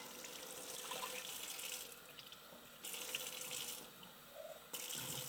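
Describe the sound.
Water running from a tap into a sink, a steady hissing rush that continues throughout with a few louder surges, with no talking.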